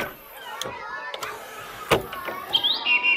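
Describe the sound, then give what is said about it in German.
Blackbird song plays from a bird-sounds CD. Brief, high whistled notes sound near the end, mixed with scattered clicks and fairly faint throughout. “So schön singt die Amsel.”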